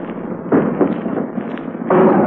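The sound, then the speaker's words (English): An artillery shell bursts during the Marine landing on Iwo Jima, heard as two loud, sharp blasts that stand out from a constant low rumble. “And there we've hit the beach, just simultaneously with that shell burst that you heard, we hit the beach. The Marines landing on Iwo Jima.”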